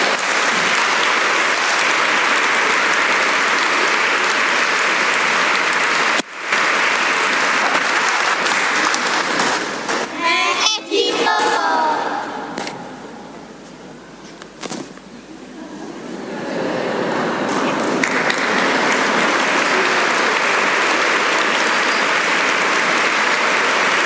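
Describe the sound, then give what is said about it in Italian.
Applause from a crowd at a parish farewell tribute to a departing priest, a sustained broad clatter of clapping that thins and softens midway, then swells back to full strength until the end. “Un applauso, ecco.”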